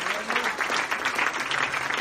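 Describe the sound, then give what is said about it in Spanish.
A church audience applauds during a service. The clapping is dense and steady, with slight swells in intensity, and continues throughout without pause. “Ese aplauso es de victoria al Dios nuestro.”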